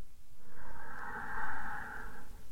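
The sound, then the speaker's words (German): A deep breath drawn in through the nose, one long, steady, airy inhale lasting over two seconds, quiet and heard alone without talk. “einmal 3 ganz tiefe, nährende Atemzüge durch die Nase ein”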